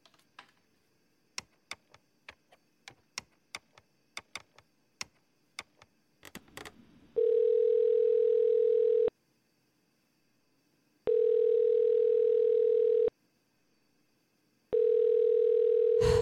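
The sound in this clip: Ringback tone of an outgoing telephone call, preceded by a quick run of light taps. Three long, steady tone bursts follow, separated by silent pauses.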